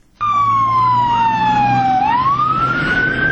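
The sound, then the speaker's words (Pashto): An emergency vehicle siren wails in Kabul after a suicide bombing near the airport, with fire engines and ambulances responding. One loud, continuous tone glides steadily downward, then sweeps back up. “په کابل کې د نن ورځې انتحاري حملې او د پیښې په سیمه کې د اطفایو او امبولانسونو غږونو یو ځل بیا د ښار د اوسیدونکو ژوند نارامه”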